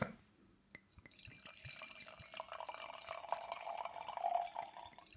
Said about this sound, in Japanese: ワインを注ぐ音はいいね、マルセル・ラピエールの、 はい、 モルゴン